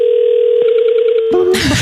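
Telephone call tones: a steady single-pitched tone holds, pulsing briefly in the middle, then cuts off into a short burst of noise at the end.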